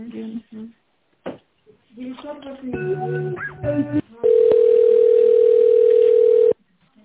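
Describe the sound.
Telephone line tones while a call is being transferred: a jumble of short electronic beeps and chirps, then one loud, steady, unbroken tone that holds for about two seconds before cutting off abruptly.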